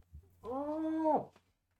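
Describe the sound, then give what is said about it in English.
A house cat meows once, a single drawn-out, tonal call that holds steady and then drops in pitch at its end, heard alone over quiet. “Meow. Here. Excuse me, kitty.”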